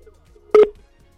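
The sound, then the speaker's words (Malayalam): A single short telephone keypad tone sounds once, a clear steady beep in near silence, with no ringing after it. “Okay, ഒരു call അങ്ങോട്ട് വരും.”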